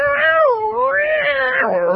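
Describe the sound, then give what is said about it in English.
A cat meows in one long, loud, drawn-out call whose pitch wavers up and down several times, with no other sounds around it. “Come here. I'm going to watch what I can do with this cat.”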